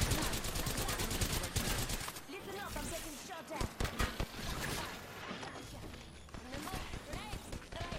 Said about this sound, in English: Whoa! That gun is so hard to control, man.